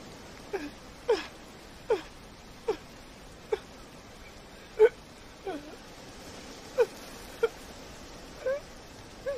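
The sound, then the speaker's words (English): A woman sobbing outdoors: many short, breathy, whimpering sobs in an uneven rhythm, each a sharp catch of breath with a wavering cry, fairly faint against quiet background noise. “She climbs down a small embankment, then bends down and sobs.”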